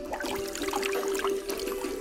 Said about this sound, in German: Wir waschen nämlich gerade die Füße